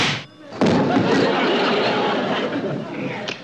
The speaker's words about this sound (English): Don't slam the door.